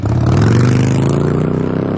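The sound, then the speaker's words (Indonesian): A speeding motorbike running a red light: a loud, continuous engine roar holding a steady, driving pitch throughout the two seconds. “tuh orang ngebut bener bu motor. Gak mikir nyawa apa ya? Pakai ngelanggar lampu merah lagi.”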